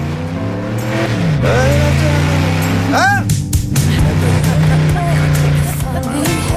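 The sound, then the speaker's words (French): A race car roars past during the 24 Hours of Le Mans race while a concert plays, its loud engine tone sustained and shifting throughout, with people talking over it. “J'ai pas entendu à cause de la voiture.”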